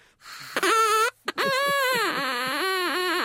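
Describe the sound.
Reedy hooting from a carrot with a drinking-straw reed: a short buzzing note, a brief gap, then a long sustained tone whose pitch dips and wobbles before steadying to the end.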